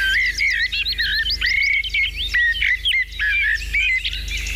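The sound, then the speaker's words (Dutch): A Eurasian blackbird sings loudly and alone, pouring out fluid, varied warbling phrases with bright chirps and quick flourishes over a faint low hum. “Ja. Een merel. Een merel!”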